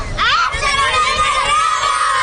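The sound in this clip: Schoolchildren shout together as their school passes in procession with banners during a live outdoor radio broadcast, a dense, loud, continuous mass of high young voices with no pauses.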